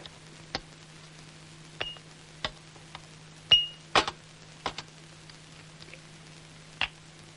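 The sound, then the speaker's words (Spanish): Glass clinks from whisky glasses on a serving tray as a waiter sets it down on a desk: several faint, sharp, scattered ticks over a low steady hum, with no voices. “Un joven camarero trae una bandeja con unos whiskies que deja en el escritorio.”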